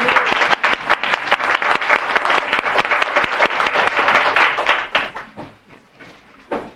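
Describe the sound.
Applause in a state legislature welcoming a member's family, a loud, dense burst of clapping that holds steady for about five seconds, then thins out and fades, with a brief swell near the end.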